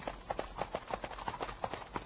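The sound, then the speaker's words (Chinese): Horse hoofbeats come from behind, a quick, steady clip-clop of many evenly spaced thuds, fairly faint and even in loudness throughout. “你们听啊，我听见后面有马蹄声”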